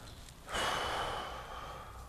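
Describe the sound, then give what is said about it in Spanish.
A deep inhalation during a breathing exercise: one soft, airy breath begins abruptly and fades out gradually over more than a second. “Inhala bien profundo, vamos a comenzar, espalda bien recta. Inhala profundo.”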